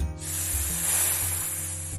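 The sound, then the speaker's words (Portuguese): Hiss of a small black-scaled snake on desert sand: a bright, airy, sustained hiss that starts abruptly and holds steady, over a low droning tone. “Uma pequena serpente de escamas negras acejava pelos cristais de areia.”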